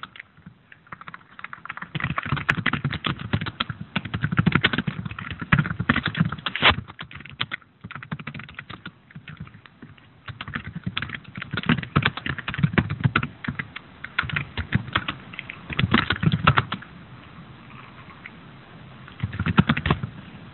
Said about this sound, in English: So let me type this out.